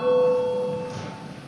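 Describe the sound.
Parliament chamber bell rung to call a vote: a single steady ringing tone, loud from the start, that holds briefly and then fades gradually.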